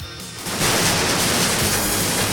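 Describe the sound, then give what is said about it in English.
Several men fire their guns at once in a radio drama. After a brief quieter start, a dense, loud wash of overlapping gunfire surges in and holds steady to the end. “Simultaneously, the men draw their guns and start firing.”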